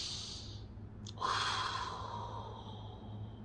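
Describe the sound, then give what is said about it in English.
A single deep breath drawn in, one long airy inhalation that swells and then slowly fades over a steady low hum. “I just notice, hey, we need to get ourselves in order. And I guess what you do? You take a deep breath.”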